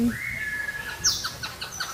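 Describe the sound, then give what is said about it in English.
Tropical birds call in a conservatory. A long, steady whistled note is followed by a scatter of short, high chirps and tweets over a low background rumble. “We have tropical plants, tropical birds.”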